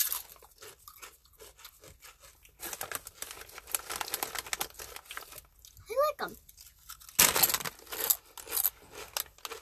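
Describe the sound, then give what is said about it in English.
Crunching of cheese-flavored chips being bitten and chewed: a few crisp, crackly bursts, one loud, between and under people talking. “These smell just like regular cheese-flavored chips. I think you're gonna like them.”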